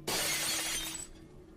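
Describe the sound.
Objects smash with a sharp, bright shatter of breaking glass. The loud crash lasts about a second and then fades into quiet.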